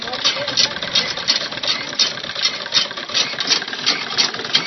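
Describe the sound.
Sewing machines run at a tailoring training centre where teenage girls are learning, giving a steady, mechanical whir that swells in quick, regular rhythmic bursts.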